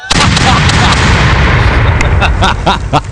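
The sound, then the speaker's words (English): A gunfire sound effect erupts as a loud, dense barrage of shots that blends into a continuous roar, with several sharper cracks standing out toward the end. “If your acceptance speech is over 30 seconds, Puffy starts shooting.”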